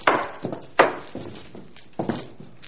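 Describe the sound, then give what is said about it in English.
Heavy chains clank as a demonstration during a church sermon, a few uneven, weighty metallic knocks with short ringing decays, the strongest near the start, separated by quiet gaps, with no voices. “We can't afford to be in chains. It's sad, but this is the noise you hear when folks walk in the church today.”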